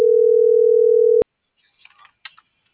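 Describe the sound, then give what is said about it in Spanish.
A steady telephone dial tone hums for just over a second, then cuts off abruptly as a call is dialed. A few faint, brief sounds follow in near silence. “Ya le estoy marcando a ese güey.”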